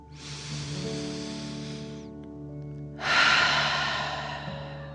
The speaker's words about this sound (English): take another deep dragon breath. Fill up your belly in and out.